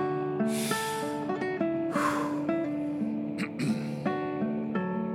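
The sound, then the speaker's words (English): A deep breath after exertion, following carrying firewood up a hill in the wind: two breathy rushes of air standing out over a steady tonal melody. “Just let me catch my breath. One deep one.”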